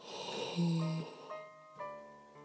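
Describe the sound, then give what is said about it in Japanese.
A person yawning: a long, breathy voiced exhale holds a tone and then trails off, followed by softer sighing breaths. “こうやってあくびをしながら涙目になりながら「小平寺」配信して”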